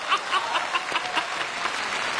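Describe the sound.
Steady audience applause at a stage comedy performance, a dense even clapping texture that holds at a similar loudness across the short clip, with no clear speech over it.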